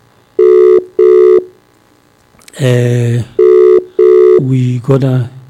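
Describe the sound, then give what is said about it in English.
A telephone rings in a double-pulse pattern: two short tones, a pause, then another pair. A voice cuts in between the pairs and again after the last ring. “It's ringing.”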